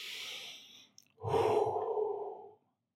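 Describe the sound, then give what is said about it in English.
A slow, deep breath: a soft, airy inhale lasting nearly a second, a brief pause, then a longer, fuller exhale that sighs out and fades into silence. “Take that deep breath.”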